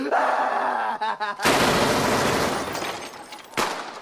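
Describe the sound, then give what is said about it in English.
Gunfire breaks out after a stretch of voices: a sudden loud blast with a long crackling tail, then a second sharp shot near the end. “Stop it! Stop it! Don't shoot that little motherfucker no more!”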